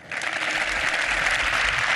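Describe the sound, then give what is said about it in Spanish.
Audience applause follows a speech thanking a football club and its fans, a dense, steady wash of clapping that starts softer and quickly fills out, continuing evenly to the end without voices. “ahí están los aplausos al discurso de Marcos”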